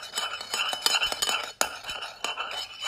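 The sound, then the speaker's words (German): A spoon clinks repeatedly against a glass while a blue cocktail is stirred. The many light, irregular chinks and scrapes come in quick succession. “So. Umrühren. Oh, das wird nice.”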